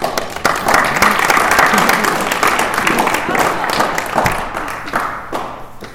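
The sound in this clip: Audience applause greets a panel at an evening meeting, a dense and steady wash of clapping that holds for about six seconds before thinning slightly at the end.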